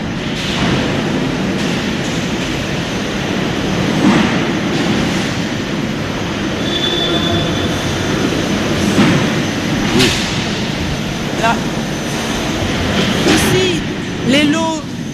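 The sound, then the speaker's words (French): Double conveyor running at a fish auction, carrying lots of fish in bins: a continuous rumbling, rattling drone with occasional sharper clanks, under people talking. “Ici, envoie les lots sur le convoyeur, ça commence ici et vous voyez qu'il y a un double convoyeur.”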